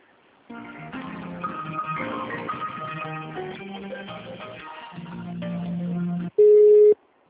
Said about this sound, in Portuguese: Ah, vou te transferir só um minutinho, por favor.